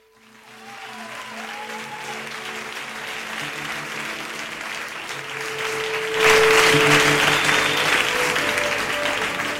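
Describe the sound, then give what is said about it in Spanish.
Audience applause fades in and holds as a dense patter of many clapping hands, swelling noticeably louder about two-thirds of the way through and staying strong to the end. “Me aplauden y todo.”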